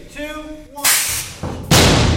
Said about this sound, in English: the 2x4 just punched a huge hole in the plywood and then bounced right off